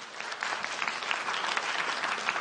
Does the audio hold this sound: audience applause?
yes